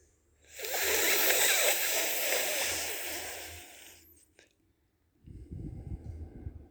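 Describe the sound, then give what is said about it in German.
Slow breathing during a guided relaxation exercise: a long, airy breath of about three seconds, a short pause, then a softer, lower breath that lasts a little over a second. Both are quiet and unhurried. “Kann man auch viel länger machen, wir machen aber nur noch einen Atemzug.”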